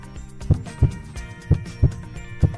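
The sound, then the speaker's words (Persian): A slow heartbeat pulses as soft, low double thumps in a lub-dub pattern, the pairs repeating about once a second beneath a sustained musical backing. “صدای ضربان قلبه یواش یواش میزنه ضربه این صدای ضربان”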